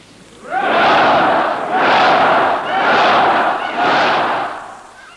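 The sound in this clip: A large crowd at Stockholm Stadium gives four loud, drawn-out cheers in quick succession after King Gustav V's speech on 6 June. Each swelling roar rises and fades before the next begins.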